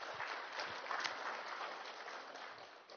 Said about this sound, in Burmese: ဘုရားသခင်ကျေးဇူးတော်အလုံးအားရပါလက်ခုပ်တီးပြီးတော့ချီးမွမ်းကြအောင